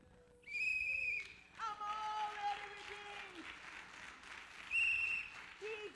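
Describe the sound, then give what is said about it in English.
A loud, shrill whistle is blown into a microphone at a praise gathering. Two bright, piercing blasts, one near the start and one near the end, ring out over steady applause and crowd noise. “You've got to blow your whistle just as loud as I accidentally did in that mic.”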